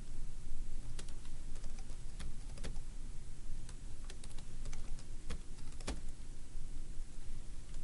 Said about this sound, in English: I'm going to type in test user, and I'm going to type in my password.